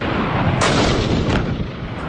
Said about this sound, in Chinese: 射手利用战车短停间隙快速瞄准击发，炮弹呼啸而出，准确命中目标。